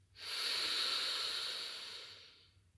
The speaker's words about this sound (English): we would together inhale through the nose